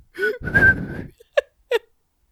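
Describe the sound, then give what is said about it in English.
A person whistling with a breathy, unsteady tone: a wavering sustained note after an airy intake, then two short, separate whistled toots. “I'm just whistling.”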